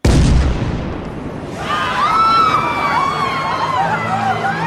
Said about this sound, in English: Jensen Akins then remotely detonated a bomb to cover his escape.